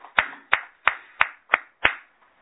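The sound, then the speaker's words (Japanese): Six sharp hand claps in an even, steady rhythm celebrating an 81st and a 49th birthday. Each clap is crisp and separate, with short decays between, and the sequence stops cleanly. “今日は余興先生が満81歳、アメリカのノリコの夫のグラント君が49歳の誕生日を迎えられましたので盛大な拍手でお祝いをした。”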